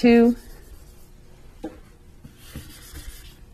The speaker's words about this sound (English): I'm going to have to erase this